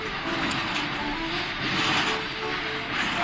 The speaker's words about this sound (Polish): Słyszycie? To jest właśnie mój pociąg. Moskwa-Władywostok. Zaraz przyjedzie.